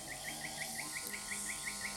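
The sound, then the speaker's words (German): Faint bird calls in a jungle café: a fast, evenly spaced series of short high chirps repeating steadily over a low, constant background hum. “Ein Café mitten im Dschungel. Ein Vogel.”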